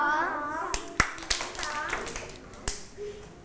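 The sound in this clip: Children clap their hands during an exercise routine of waist twists followed by claps. A few sharp, isolated claps are scattered among children's voices.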